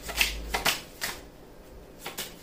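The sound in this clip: Tarot cards being shuffled in a few brisk riffling bursts, short papery flutters separated by brief pauses.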